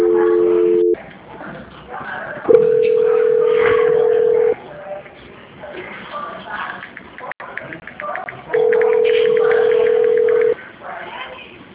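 Telephone line tones sound during a call transfer: three steady, loud, low beeps, each about one to two seconds long. Pauses of faint line noise separate them.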